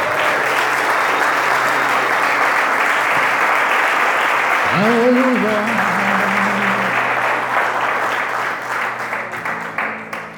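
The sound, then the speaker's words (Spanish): Applause from a church audience during a Sunday morning sermon: dense, loud, steady clapping that carries for about ten seconds and thins slightly toward the end. “Dale un aplauso, papá.”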